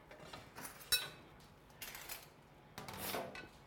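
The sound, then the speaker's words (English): A serving spoon scrapes and scoops food out of a dish during a chef's cooking demonstration, making a few faint, short rasping scrapes separated by quiet pauses. “you have a serving spoon or something? Uh, yeah. I think he's put so many of them away, but you want like a. Just something I can scoop this stuff out.”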